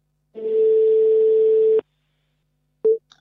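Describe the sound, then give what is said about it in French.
A telephone ringback tone as a call is placed: one long, steady electronic tone lasting about a second and a half, then silence, then a brief blip at the same pitch. “Je laisse Sam lancer l'appel”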